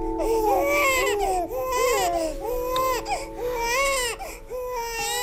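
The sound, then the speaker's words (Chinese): Two little babies crying together, their high, wavering wails overlapping and rising and falling almost without pause, loud and insistent. “两个小家伙还一起哭呢”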